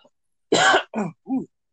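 Throat clearing to shift phlegm, three short rasping bursts in a row, the first longest and loudest and the last shorter and softer, with silence around them.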